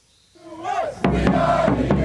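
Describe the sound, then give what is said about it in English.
American soccer fans in Doha cheer their team at a World Cup match against Wales: a single rising yell after a quiet moment bursts into loud, sustained crowd noise. “Cheering on the Stars and Stripes in their first World Cup match in 8 years, American fans in Doha.”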